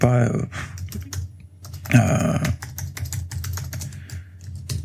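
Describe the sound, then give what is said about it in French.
Computer keyboard typing, a dense run of many quick clicks at a steady moderate loudness, with a person speaking over parts of it. “je tape, excusez-moi, hein, je tape en même temps”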